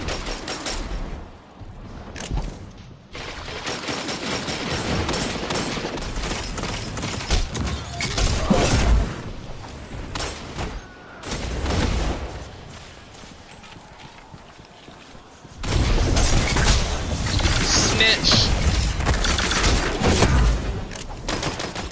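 Gunfire in a Destiny 2 Crucible player-versus-player match, with auto rifles, shotguns and sniper rifles in play: loud bursts of rapid shots with brief lulls, then a heavier sustained volley over the last several seconds.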